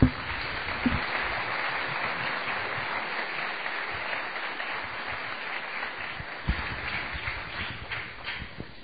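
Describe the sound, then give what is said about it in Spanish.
A church audience applauds with dense, steady clapping that holds evenly for the whole stretch, with no voices over it. “Un fuerte aplauso para ellos.”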